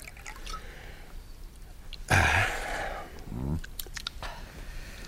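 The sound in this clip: A drink poured and drunk in a radio drama: a quiet scene where a short burst of splashing liquid stands out, followed by softer gulping sounds against faint background noise.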